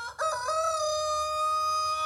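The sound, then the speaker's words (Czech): A rooster crows once in a single long, loud, tonal call that holds steady for about two seconds with no other sounds around it. “Zakokrál kohout.”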